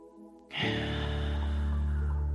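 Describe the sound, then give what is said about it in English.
A long, deep breath begins abruptly after a short quiet moment and holds strong and steady to the end, over a low, sustained hum. “And as I take these deep breaths, bring my attention to the sensations that are showing up as a result of the breath.”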